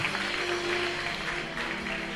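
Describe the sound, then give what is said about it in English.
Church audience clapping their hands together in steady, dense applause that holds at an even level for the whole stretch, with no voices standing out. “And clap your 2 hands together”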